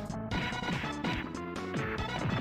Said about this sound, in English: Oh no, I got jump kicked.